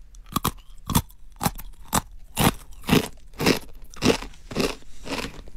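Plain-flavoured Jagarico potato stick snacks are crunched in a run of many sharp, crisp bites and chews. Each is a short, bright crackle, coming at a fairly steady pace with brief quiet gaps between them.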